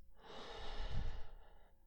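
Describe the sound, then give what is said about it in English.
A deep breath drawn in and slowly let out by someone lying on their back with eyes closed. The soft, airy hiss swells and fades over about two seconds, with no talk. “Take a deep breath and exhale slowly.”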